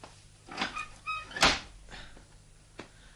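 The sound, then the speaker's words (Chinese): A door being opened in a home produces a few soft, quiet knocks and rattles, with one sharper clunk in the middle. The handling sounds are brief and sparse, with near silence between them. “我先开门啦。”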